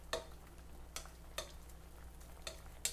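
Onions and spinach cook in a pan without oil: faint, soft scrapes and clicks of stirring at irregular intervals over a low, steady hiss.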